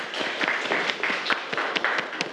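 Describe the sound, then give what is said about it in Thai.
Students clapping in a classroom after a correct answer in a lesson: scattered, moderately quiet claps in an uneven patter, with individual hand strikes standing out. “ปรบมือนะครับ”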